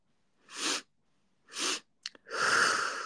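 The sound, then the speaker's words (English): A person breathes in several times and then exhales all at once. There are two drawn-out inhales and a brief quick catch of breath, followed by one long, louder exhale, with no talk. “you breathe in once, you breathe in again, you breathe in another time, and then you let it go all at once”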